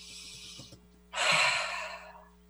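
A shallow breath taken as a demonstration: a softer airy hiss comes first, then a louder, rougher intake of about a second that tails off slowly, with no talking.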